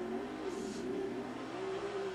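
A turbocharged 900 XP race vehicle engine drones steadily on smaller tires, its hum wavering slightly in pitch without any sharp revs. The sound stays moderately faint and even throughout.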